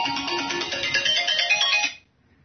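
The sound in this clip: A mobile phone ringtone plays a bright electronic melody of quick tonal notes for about two seconds, then cuts off into near silence.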